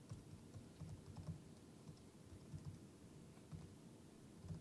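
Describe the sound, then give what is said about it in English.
Faint typing on a computer keyboard, with many soft key clicks in an uneven rhythm and short pauses between bursts. No one speaks. “And let's see, so I guess I have to type these two.”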